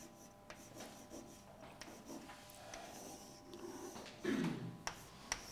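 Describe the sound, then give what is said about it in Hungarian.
Faint scratching and rubbing strokes of someone drawing a cross-section on a board, a steady run of soft writing sounds that grows a little louder toward the end, with a few sharper taps. “Most a keresztmetszetét rajzolom le.”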